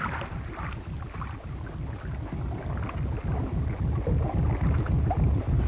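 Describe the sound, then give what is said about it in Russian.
Low throbbing engine rumble of a small motor boat slowing down among drifting ice floes. A steady pulsing drone grows slightly louder over the stretch. “Маленький катер замедлил ход, уперся носом в льдину, и Пат”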